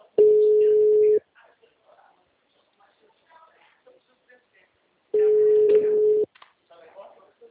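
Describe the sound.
Telephone tone after a dropped call: two steady, sustained beeps, each about a second long and separated by a long gap, with faint voices murmuring in between.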